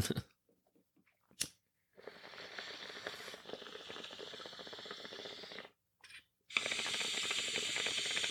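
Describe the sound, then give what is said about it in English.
Gelato cannabis being smoked in the morning, heard as two long, steady hissing stretches separated by brief quiet gaps, with no talking. “We are smoking out some gelato this morning.”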